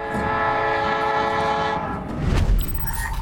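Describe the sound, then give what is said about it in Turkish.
Locomotive 3009 departing and pulling its first wagon: a long, steady train horn blast, then a low rumble and clatter of the moving train as the horn fades. “3009 yola çıktı. Tamam, ilk vagon çekildi.”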